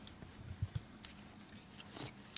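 Soft biting and chewing as someone eats tender grilled eel with sweet sauce over rice: a few faint, brief squishy bites, quiet and alone.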